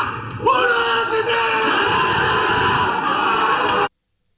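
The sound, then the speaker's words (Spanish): Almería football players shout together in a team huddle in a stadium, a loud, sustained burst of massed voices that stops abruptly. “Ese es el sonido de la piña de la Almería”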